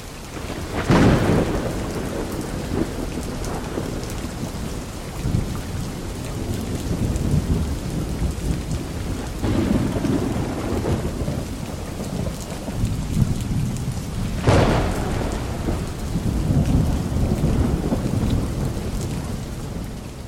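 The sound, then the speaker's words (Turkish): Steady heavy rain falls through a thunderstorm, with a few deep rolling thunder rumbles breaking over the continuous hiss of the downpour. “önce güzel bir yağmur ve gök gürültülü şimşekli bir audio dinleyelim.”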